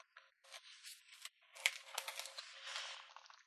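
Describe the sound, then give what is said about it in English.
Packing tape being peeled and torn off a cardboard product box during an unboxing: faint, scratchy crackling rips that come in several uneven bursts and grow busier toward the end, with no talk. “And it doesn't look, doesn't seem too difficult to open. Just gotta get rid of this tape.”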